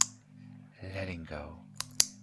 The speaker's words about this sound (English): letting go of my words, just focusing on the clicker, drawing you down into trance, pulling you deeper and deeper